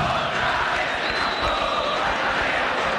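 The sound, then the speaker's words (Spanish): Football crowd in the stands cheering and chanting for Cerro during a free kick in the clásico against Olimpia. It is a dense, continuous roar of many voices without clear breaks. “Tiro libre para Cerro, aliento del público, aliento, aliento del público de Cerro.”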